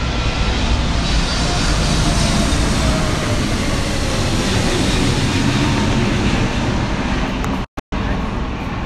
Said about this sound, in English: A plane is going by.